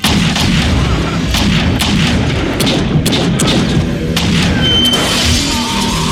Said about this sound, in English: They both shot each other.